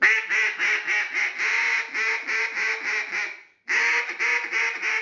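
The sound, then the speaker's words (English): A cut-down duck call is blown in many rapid, nasal quacks in a choppy rhythm. The loud, raspy run breaks off briefly near the end, then picks up again. “and I'm going to run the cut down”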